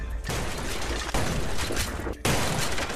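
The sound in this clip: Shotgun and handgun gunfire erupts in a shootout around tables, with wood chips bursting off a table. It is a loud, dense, continuous barrage of blasts and crashing noise, broken by two brief gaps.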